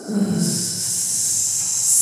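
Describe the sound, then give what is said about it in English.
A voice imitates a growing hiss: a breathy, steady hiss that swells and brightens toward the end, with a brief low vocal sound at the start. “You start hearing this growing hiss sound, like just like,”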